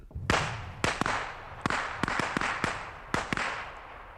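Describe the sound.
Pistol shots ring out as a rapid, uneven series of many sharp cracks, each with a short decaying tail.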